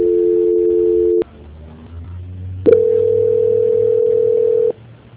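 Telephone line tones play during a call transfer: a loud, steady dual-pitched tone for about a second, a quieter low-humming gap, then a single higher tone held for about two seconds before stopping.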